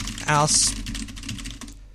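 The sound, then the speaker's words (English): Typing on a computer keyboard, a quick run of many light, uneven clicks, with a brief vocal sound near the start. “Wait, I typed it right, right?”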